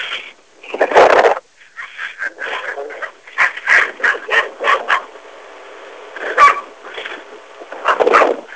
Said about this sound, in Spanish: Realmente los perros nos empiezan a acompañar